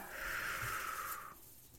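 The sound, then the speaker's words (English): One long, deep breath forms a breathy hiss that holds steady for over a second and then cuts off, leaving near silence. “And take a nice few deep breaths here.”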